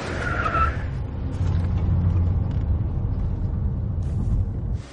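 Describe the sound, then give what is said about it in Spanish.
Tires skid as a car swerves on a dark road and is straightened, a loud, continuous rushing roar with a low engine rumble lasting throughout, with no voices. “Despierta al sentir el golpe y endereza el coche.”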